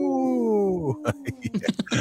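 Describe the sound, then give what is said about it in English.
A voice imitates a wolf howl with one drawn-out, tonal wail that slides downward in pitch, then breaks off into talking. “this portion of the show wants to make me howl like a wolf. Howl.”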